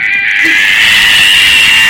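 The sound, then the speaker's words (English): An angry cat at an animal shelter lets out a loud, sustained yowl, a harsh high-pitched caterwaul that holds steady throughout without a break. “That noise is the cat. Like, that's not me. That's not anyone, like, doing a voice. That's the cat, and it is pissed.”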